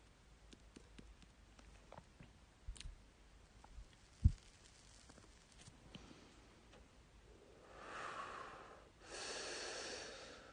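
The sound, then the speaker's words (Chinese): Tobacco burning while someone smokes, very faint scattered crackles and ticks with one sharper tick. Two soft, drawn-out breaths follow near the end, with no talking. “我听到烟丝燃烧的声音，好像也能听到你呼吸的声音。”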